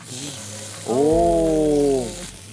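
Sizzling from meat being added to a hot pan beside onions pushed to one side. A loud hiss surges at about one second and holds steady before easing, with a tonal hum layered through the louder stretch.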